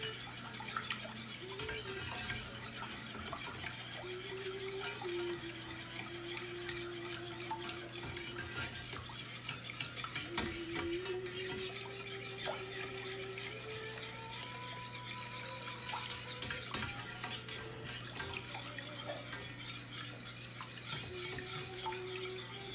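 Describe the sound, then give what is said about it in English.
Stirring eggs into a mixture in a home kitchen: a utensil scrapes and clinks steadily against a bowl, with squeaky rubbing tones and occasional light knocks, continuous and fairly faint throughout. “There's one that just dropped. That's the second egg. Make sure to incorporate the second one really, really good.”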